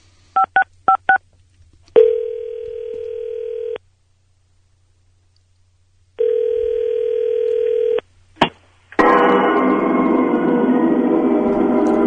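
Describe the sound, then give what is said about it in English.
Touch-tone telephone dialing: a few quick beeps, then two long steady line tones separated by silence, a sharp click, and a loud, noisy, buzzing line sound at the end. “Let's dial this up.”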